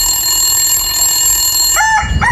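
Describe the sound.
A telephone rings on a call: two short electronic ring bursts near the end, over a steady sustained tone.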